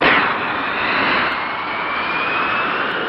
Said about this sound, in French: Istre, dans ce mirage 3C, le pilote d'essai Jacqueline Oriol, guidée du sol par l'ingénieur Durand, tente de battre le record féminin de vitesse en circuit fermé.